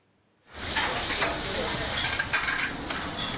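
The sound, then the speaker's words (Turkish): Liver fries in a pan at an Edirne liver eatery. The bright, even sizzling hiss starts abruptly and holds steady to the end. “Tavada pişiyor, bir dakika içinde servise hazır hale geliyor.”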